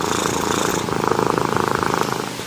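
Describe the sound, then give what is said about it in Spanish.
A cat purring: a steady, loud rhythmic rumble of many fast pulses, continuous for the whole stretch with no other sounds. “Está roncando. Está ronroneando porque el ronroneo te relaja.”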